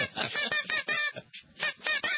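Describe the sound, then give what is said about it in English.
A little squeaky horn is honked in many quick, bleating squeaks with short gaps between them, some honks longer than others, at moderate loudness. “Is it scary that you have that little squeaky horn right next to your desk all day long? Charlotte's trying to stick her nose in it. That's my brother's squeaky horn. This is squeaky horn.”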